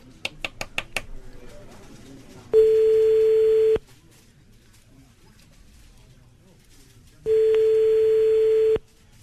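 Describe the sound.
French telephone ringback tone as an outgoing call rings unanswered: a few quick clicks, then two long, steady, loud tones separated by a long silent gap.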